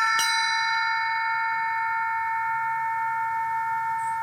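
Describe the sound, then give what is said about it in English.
A cowbell is struck once, and its bright metallic clang keeps ringing as a steady, sustained tone for several seconds. “I think this is a cowbell. This one had a great sound, you know.”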